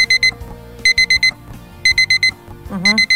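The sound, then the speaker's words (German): Alarm clock ringing in four bursts, each made of four rapid, high, piercing beeps separated by short pauses, loud over a faint background. “Dieses Geräusch mag nicht jeder und auch nicht jede. Und ich gehöre da an vorderster Front dazu. Das Weckergeräusch ist nie schön,”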